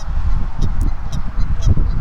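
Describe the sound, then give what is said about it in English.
A dense chorus of geese honks from a flock on partly frozen water near a weir as the ice melts. Many overlapping nasal calls rise above a rough, noisy din. “some of the geese by the row marker, they want to go over by the weir, but a lot of geese are protesting. Honk, honk, honk, honk, honkity honk.”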